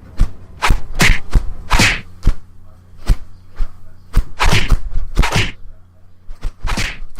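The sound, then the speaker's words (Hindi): Sharp punches and thuds as thugs beat a man on the road in the evening: many irregular, hard impact hits in quick clusters, loud, with no voices. “Mohan शाम के वक्त office से बाहर निकला तो रास्ते में उन गुंडों ने मोहन को मारना पीटना शुरू कर दिया”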